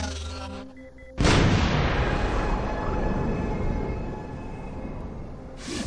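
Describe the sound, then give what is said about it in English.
A torpedo explodes over a city district with a sudden deep boom that swells into a long, loud rumble. The rumble fades slightly and then rises again near the end. “I watch as the torpedo explodes right over the Darren district.”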